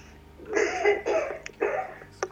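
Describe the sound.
A person coughs a few times, harsh and throaty. There are short gaps between the coughs and a couple of faint clicks.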